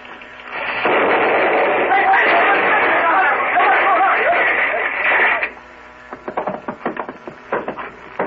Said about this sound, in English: I'm using now what is called a ramrod. Uh-huh. Ramming the powder and shot in. Just a second. There. Now it's ready. They must use watchmaker's tools, microscopic precision. I'll fire it out the window.